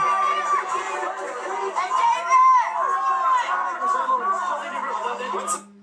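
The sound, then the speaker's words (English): A crowd at Planet Hollywood in 1995 keeps up dense, excited chatter and shouting voices over a steady low hum. The noise stays loud throughout and cuts off abruptly at the end. “But that's the crowd at Planet Hollywood in 1995, baby.”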